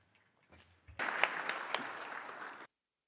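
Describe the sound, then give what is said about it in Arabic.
Applause from an audience after an ambassador's speech at a formal meeting breaks out after a faint stir, holds at steady strength for about a second and a half, then stops abruptly. “تصفيق ينم على مدى ثقة فيكم.”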